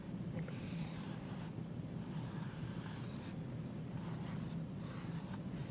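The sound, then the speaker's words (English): Scratchy drawing strokes as a flower is sketched come in several short bursts with brief pauses, a soft, dry rasp and no talk. “so I'm good at drawing trees and flowers. You draw a lot of trees and flowers when you're a primary school teacher. So this is a flower, okay?”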